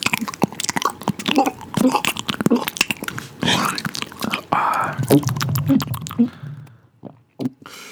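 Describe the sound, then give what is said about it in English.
Wet chewing and crunching as someone eats food, with irregular clicks, smacks and squishy bites in a dense run. “If I eat it, it's going to sound like this.”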